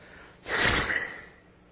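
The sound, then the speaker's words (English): A single snort of disgust, a short breathy nasal exhale that swells quickly and fades over about a second against a quiet background. “And you snort at it. It's a snort of disgust.”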